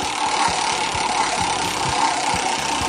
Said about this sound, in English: let's spin the wheel.